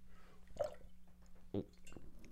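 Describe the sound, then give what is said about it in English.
Faint liquid gulps and sloshes come from someone drinking out of a new UFC water bottle, two brief bursts standing out against near-silence. “Just drinking out of my spanking new UFC water bottle.”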